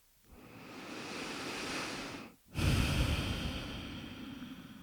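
Slow breathing during a guided meditation: one long, soft inhale, a brief pause, then a longer and louder exhale.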